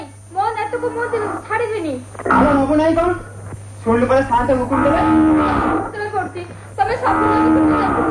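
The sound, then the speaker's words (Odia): Cow lowing from a household cow tied to a post, with a few drawn-out, wavering moos heard under and between people talking. “ଆଉ ହଁ, ତାର ଗୋଟେ ଗାଈ ଥିଲା ପରା? ଅଛି ସାନ୍ତେ, ଏଇଠି ବନ୍ଧା ହେଇଛି, ଗାଈଟାକୁ ଫିଟେଇ ଆମ ଗୁହାଳରେ ବାନ୍ଧି ଦିଅ।”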